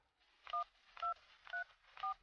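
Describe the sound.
A telephone number being dialed: four short dual-tone keypad beeps, evenly spaced about half a second apart, each led by a soft button-press click, with no voices.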